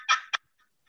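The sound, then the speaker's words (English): A handheld turkey call imitates a turkey: a longer raspy, yelping note is followed by one short sharp note, then near silence. “that's not good turkey rhythm. You say that, take that same turkey call and, you know, that's good turkey rhythm.”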